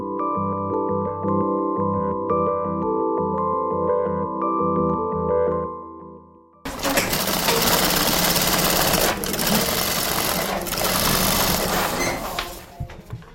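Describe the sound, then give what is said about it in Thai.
Sewing machines worked by experienced women in a small North Melbourne workshop, first a steady humming drone, then a louder, busier rattling whir that runs on continuously. “ที่เวิร์กช็อปเล็กๆ ที่นอตเมลเบิร์นนะคะ มีกลุ่มสตรีที่มีประสบการณ์ ด้านการเย็บผ้ากำลังทำงาน”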